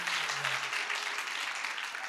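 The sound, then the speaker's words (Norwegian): Applause from a church audience, a dense, steady patter of many hands clapping at an even level throughout. “Skal dere dømme en applaus?”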